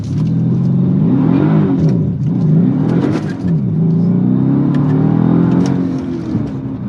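A Mercedes car accelerates hard with traction control switched off. The engine roars loudly without a break for about seven seconds, and its pitch climbs and drops several times as the car pulls away.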